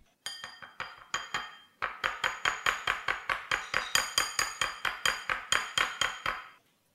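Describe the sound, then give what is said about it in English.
A whisk stirring milk into a dough mixture in a bowl makes many rapid, sharp metallic clinks in a steady, even rhythm, with one brief pause early on. “I've just put them both into a bowl. I'm just gonna stir it up with a whisk.”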